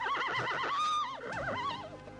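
A ridden horse whinnies in one loud, long neigh of about two seconds. The call is a shaky, quavering cry that wavers up and down in pitch, heard alone and without speech.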